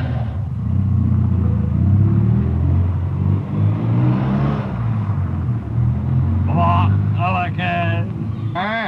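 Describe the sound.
A car towing a caravan accelerates at full throttle, its engine a loud, steady, low rumbling drone throughout, with voices talking over it near the end.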